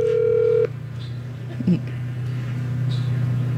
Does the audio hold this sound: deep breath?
no

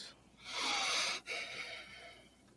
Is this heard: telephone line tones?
no

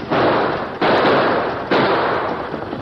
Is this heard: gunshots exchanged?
yes

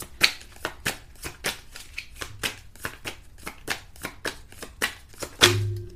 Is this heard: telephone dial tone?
no

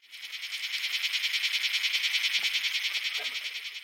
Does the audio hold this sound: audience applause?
no

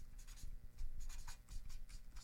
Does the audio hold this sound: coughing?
no

